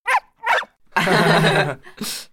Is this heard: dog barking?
yes